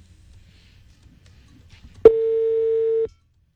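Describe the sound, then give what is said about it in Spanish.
A telephone call tone sounds once as a steady mid-pitched beep lasting about a second after near silence, as a call goes unanswered and is rejected. “No, huepucha, ¿cómo voy a hablar yo? Está rechazando la llamada. Sí. Dios mío, no le ha contestado, ya la rechazó.”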